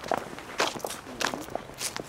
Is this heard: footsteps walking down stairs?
yes